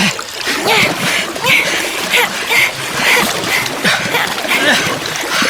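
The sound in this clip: Paddles splash water in quick, rhythmic strokes during a paddle race between two competitors. The loud, repeated splashing stays busy and continuous throughout.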